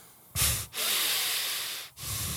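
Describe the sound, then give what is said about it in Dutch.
Loud breathing from a breath-of-fire breathing exercise: a short, sharp breath, then a long, steady, airy hiss and the start of another breath, with no voice. “Nou dan start je met de breath of fire. 30, 40 seconden. Dan adem je in en uit.”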